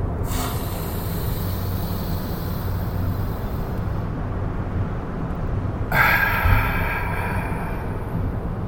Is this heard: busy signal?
no